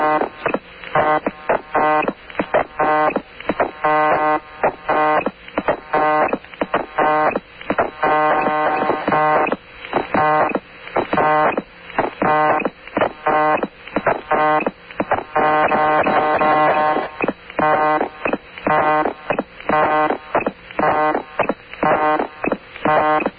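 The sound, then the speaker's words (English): A telephone busy signal with a beat to it: a thin, buzzy tone pulsing in a fast, steady rhythm, over and over, with short dropouts between the pulses. “We have a busy signal here with a beat to it. And Mike, maybe you just turn it up a little bit and people can dance to it at home.”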